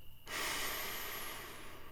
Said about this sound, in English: Take a deep breath in,